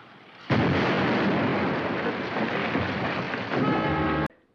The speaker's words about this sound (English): The cushion of water between the explosion and the wall absorbs the shock almost completely. Shall we have the second one? When you're ready. This should get our feet wet. Watch it. Fire!